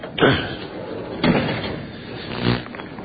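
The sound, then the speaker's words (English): A door is opened as people walk into a building: a few sharp clunks and rattling knocks rise out of a low, steady background, with no talking. “We're walking in the building now. Opening up the door.”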